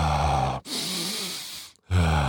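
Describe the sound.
A person takes a deep breath: one long, airy breath sound lasting about a second, set between stretches of speech.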